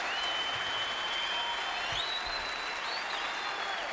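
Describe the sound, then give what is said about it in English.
An audience applauds a jazz quartet at a concert, a steady, dense wash of clapping with a few shrill whistles cutting through, even in loudness throughout. “I love the audience noise. You're only as good as your audience, you know?”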